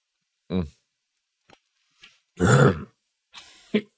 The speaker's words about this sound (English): Excuse me. I choked on my coffee there.